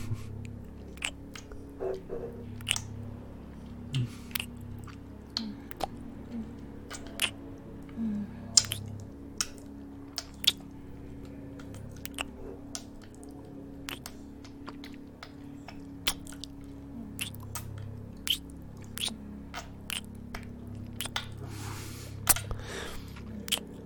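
Soft, wet kissing smacks repeat many times at an uneven pace, quiet and intimate over a low steady hum.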